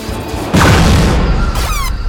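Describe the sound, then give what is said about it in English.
A heavy blast as gunfire shoots off a combat plane's right wing: a loud booming crash breaks in over an already dense, roaring background and keeps rumbling to the end. “My right wing! The bastard shot off my right wing!”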